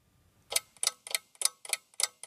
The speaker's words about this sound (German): Ich stehe vor einer turmartigen mechanischen Holzuhr.